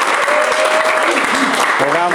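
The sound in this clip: An audience claps in steady, dense applause, with voices calling out over the clapping.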